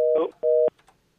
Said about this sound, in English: Hey, who's this? Hello? Clearly the phone's not working.